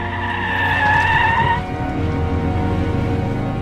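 Tires squeal in a long, high wail as a car skids through a turn, then the squeal stops and a steady, loud engine rumble carries on alone.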